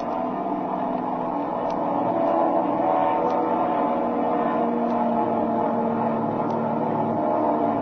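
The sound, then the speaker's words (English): The steady drone of an airplane's propeller engine, a continuous low hum with faint regular ticks, holding at an even level throughout. “His prop's slowing up.”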